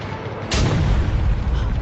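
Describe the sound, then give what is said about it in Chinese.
An artillery cannon fires a shell: one sudden, loud boom that rolls into a deep, sustained rumble. “大炮玩得熟透了。 可是我们只有3发炮弹， 关键是看射击的质量。 预备，放！”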